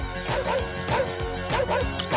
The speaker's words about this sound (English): The dog went on the picnic basket.